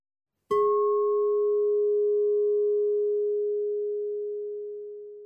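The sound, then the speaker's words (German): A pure sine tone played as a hearing test: one steady, unwavering tone starts abruptly after a brief silence and holds at constant pitch for about five seconds, fading slightly toward the end, with a faint higher overtone early on. “Und ich habe dazu auch den ein oder anderen Hörtest für dich vorbereitet.”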